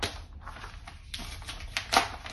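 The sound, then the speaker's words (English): Paper envelope being opened at an award announcement, faint crinkling and tearing rustles with a few sharper crackles. “Never very good with envelopes.”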